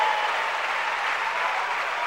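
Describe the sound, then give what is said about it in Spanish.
Congregation applauding in a church service, a thick, steady wash of many hands clapping at a constant level for the whole short stretch, with no speech on top. “¿Cuánto le dan un aplauso a la gloria de Dios?”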